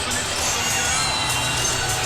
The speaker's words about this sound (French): Et le public vaudois, en tout cas, a lâché son équipe. Est plus concentré à siffler Stéphane Charlin.